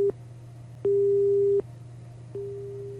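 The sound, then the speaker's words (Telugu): A telephone busy tone follows a caller's line being cut during a radio phone-in: a single mid-pitched tone pulses slowly on and off over a low steady hum, with a few evenly spaced beeps. “Phone line cut అయినట్టుంది”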